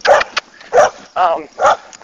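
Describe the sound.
A neighbor's dog barks four times in a steady series, each bark a loud, mid-pitched burst separated by short pauses.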